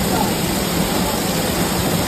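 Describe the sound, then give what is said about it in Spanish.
Torrential downpour in Castellón: a dense, steady rush of heavy rain that holds at an even level from start to finish, with no breaks or separate drops. “La tromba de agua en Castellón.”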